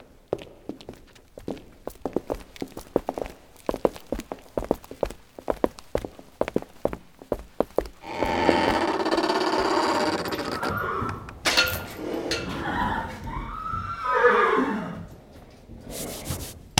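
A horse in armour stands in a stable: many sharp hoof steps and knocks come first, then a denser stretch of rubbing and shuffling noise that peaks in a loud whinny before settling again.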